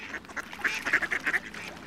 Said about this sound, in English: Look at those ducks in the water.